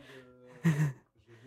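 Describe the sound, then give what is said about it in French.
A short breathy puff as someone blows onto a CD, one brief rushing burst set between fainter, softer sounds. “Je viens de l'écouter, le CD, dans le train. Il allait très, très bien. Vous m'entendez? Je souffle dessus.”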